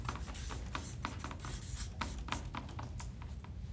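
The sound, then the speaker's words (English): Handwriting on a page as a word is written in a drawn circle: a rapid, irregular run of faint scratchy pen strokes, quiet and steady throughout, with no voices. “On this side of the circle, write the word repent.”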